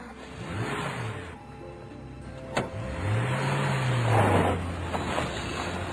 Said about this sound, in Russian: И машина тронулась по направлению к зеленой долине.